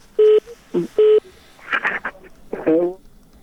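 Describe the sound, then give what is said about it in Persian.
Telephone tones as a phone call to a radio phone-in is cut off: two steady, identical electronic beeps, followed by garbled, broken, voice-like line sounds. “فکر کنم تلفنی تلفن قطع شد. تلفن دوم بگیریم.”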